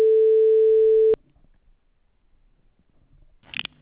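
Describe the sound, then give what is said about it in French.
A steady, single-pitched telephone line tone plays while a call is transferred, then cuts off abruptly after about a second and leaves near silence. “Veuillez patienter, je vous mets en communication avec le service des affaires scolaires.”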